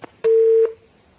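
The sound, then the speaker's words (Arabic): A single steady telephone tone, one mid-pitched beep of under half a second, marks a phone-in caller's line being cut off. Quiet line noise surrounds it. “قطع اتصال.”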